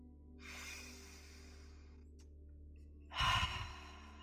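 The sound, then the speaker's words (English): Deep breathing during a guided eyes-closed meditation: a long, soft, airy inhale followed by a louder, rushing exhale, heard alone with no talking. “Me taking a few deep breaths.”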